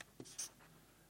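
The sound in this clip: Faint scratching of a pen writing by hand as a Bible verse reference is noted down: two brief scratchy strokes within about a second, with no voices.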